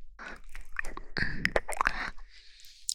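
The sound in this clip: Someone chews and bites into food with crisp, moist crunches, a quiet irregular series of bites heard alone with no talking.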